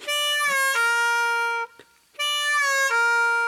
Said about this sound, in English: So the first part of the lick is going to be four draw bend, three draw half step bend.